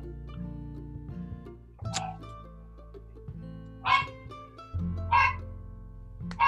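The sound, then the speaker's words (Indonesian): A neighbour's dog barks a few times in short, loud bursts separated by pauses, over a steady low hum. “Maaf, ini anjing tetangga sebelah, bukan anjing saya.”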